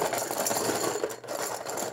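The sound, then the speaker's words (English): Paper tickets rustle and rattle as they are mixed in a popcorn can, a dense, continuous shuffling noise that dips briefly near the middle before resuming. “It's a popcorn can. It's a popcorn can. And he's mixing them all. Mix them all up. Mix them good.”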